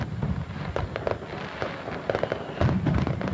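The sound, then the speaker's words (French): Fireworks crackle and pop in a dense, continuous barrage of many sharp bursts over low thumps, loud throughout with no voices, for an evening laser fireworks show. “Rendez-vous donc le dimanche 16 août à partir de 22h30 pour découvrir cette nouveauté, feu d'artifice laser, à Sauvé-Sanges”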